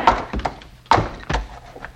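A few dull, heavy thuds of a club striking a mule's head, sharp blows separated by short pauses and standing alone without voices.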